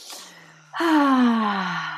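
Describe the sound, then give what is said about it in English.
A deep breath: a soft, airy inhale followed by a long, voiced sighing exhale whose pitch slowly falls, louder than the breath in. “Take a deep breath in and a deep breath out.”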